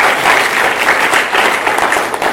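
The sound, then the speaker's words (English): Loud audience applause for two speakers at a gathering, a thick, continuous burst of clapping that stays strong throughout. “Can we all clap for Murimi and Dr. Murimi?”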